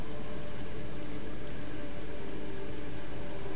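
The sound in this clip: Heavy rain pours as a steady, dense hiss that stays even and unbroken throughout, with no distinct individual drops standing out.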